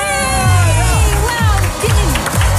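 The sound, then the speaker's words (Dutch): A cheering sound effect played on a game show: a crowd whoops and shouts with some clapping over a steady, low rhythmic pulse, loud and lively throughout. “Dan gaan we de juich inzetten.”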